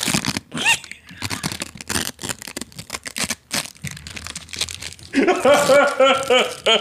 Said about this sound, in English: No talking, just eating. You want a taco? Oh, you guys brought me tacos?